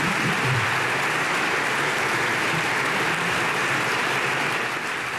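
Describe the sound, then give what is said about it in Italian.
Long applause from a parliamentary chamber standing to honour the President of the Republic's speech at a ceremony, dense, steady clapping that stays loud and unbroken throughout. “l'Aula si è appena alzata in piedi, applaudito il discorso del Presidente della Repubblica”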